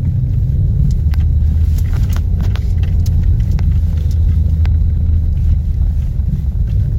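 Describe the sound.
Steady low rumble of a car driving along a road in Karelia, a continuous engine and road drone that stays even throughout, with a few faint clicks above it and no voices.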